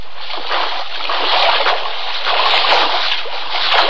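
Footsteps wading through water, sneaking in quietly with wet feet: continuous sloshing and splashing that swells and eases in an uneven rhythm, fairly loud throughout.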